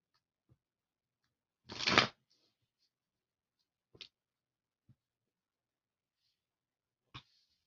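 A short riffle of tarot cards being shuffled, one quick papery burst, followed by a few faint, crisp taps and flicks as cards are drawn; quiet, with no voices.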